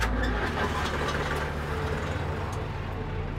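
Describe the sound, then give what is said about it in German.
A big engine starting, settling into a deep, continuous rumbling idle that holds steady throughout. “Dann starten wir die dicke Maschine.”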